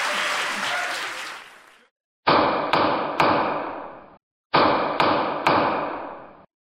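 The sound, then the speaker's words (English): Gavel strikes on a live comedy stage: applause fades out, then two groups of three sharp, loud wooden knocks follow, each ringing briefly before the next. “Okay, this is the sound of a gavel.”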